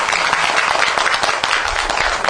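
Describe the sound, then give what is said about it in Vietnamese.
An audience applauds at a Buddhist ceremony as a senior monk is introduced, a dense, loud, continuous burst of clapping with no pauses. “Chúng ta xin một tràng pháo tay.”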